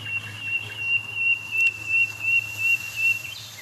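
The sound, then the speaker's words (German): Nightingales sing on the night of 1 May, with five birds audible. A high, clear whistled note repeats about eight times in an even rhythm over a steady low hum. “Weil wir haben es hier mit für uns hörbaren 5 Nachtigallen zu tun.”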